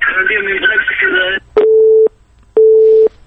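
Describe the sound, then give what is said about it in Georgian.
A busy signal sounds after a phone call drops. A person talks, and then two even, steady beeps follow with a short gap between them. “გაწყდა კავშირი”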